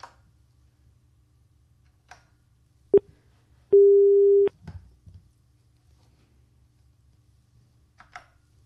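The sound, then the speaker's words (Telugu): Telephone tone after a call line disconnects: a brief beep, then a longer steady tone, followed by a few faint clicks over quiet line noise. “Hello, సరే అండి, line cut అయినట్టుంది.”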